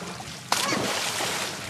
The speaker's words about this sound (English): On a scorching hot day at the Hotel Valley Ho in the Phoenix suburb of Scottsdale, a handful of guests splash around the pool,